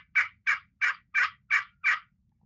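A turkey pot call played with a striker gives six evenly spaced, raspy yelps in a quick, steady rhythm, each short and clear against a quiet background.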